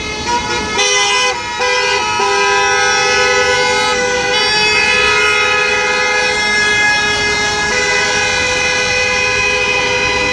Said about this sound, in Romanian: La ora 11, șoferii din Timișoara au protestat în sunet de claxoane împotriva majorării RCA.